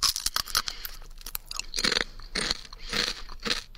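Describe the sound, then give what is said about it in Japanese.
Crunchy food eaten close to the left ear: many crisp bites and crackling chews in a steady, irregular rhythm, loud and without talk. “左の耳元で食べます。いただきます。”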